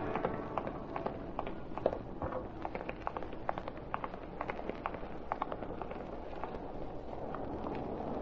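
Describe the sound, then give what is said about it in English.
A group of men walk, making many quick, muffled footsteps in a steady patter over a constant background hiss. “Taxi, gentlemen. Now we'll walk.”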